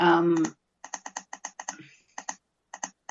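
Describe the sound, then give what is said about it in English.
Computer mouse or keyboard clicks while someone looks something up online: many sharp, quick clicks in short irregular bursts with brief gaps, following a short vocal sound at the start. “You can hear me clicking as I just trying to see where the new moon will be.”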